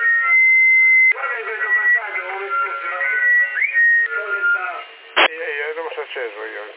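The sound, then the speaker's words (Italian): A person whistles over a CB radio channel near Sassari: a loud, steady, tinny whistled tone opens, then narrow-band voices talk with another short whistle among them. “io stavo girando, poi ho fischiato”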